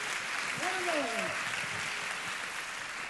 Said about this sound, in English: So, church, would you help me put your hands together? Welcome the one and only Pastor Bill Wilson.